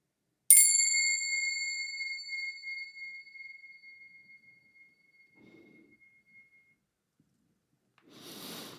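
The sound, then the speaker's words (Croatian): A small bell is struck once during a relaxation breathing exercise, giving a bright, high ding with a long ring that fades slowly. A brief soft noise follows near the end. “zvonce.”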